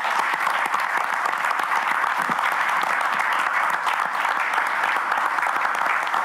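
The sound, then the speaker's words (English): A standing ovation at a Texas Tech University System board meeting after a new chancellor is approved: steady, even applause from many hands, sustained and fairly loud without a break. “So a standing ovation there.”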